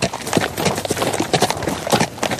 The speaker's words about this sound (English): In this 1980s video, a family rides via horseback in Nuku'alofa.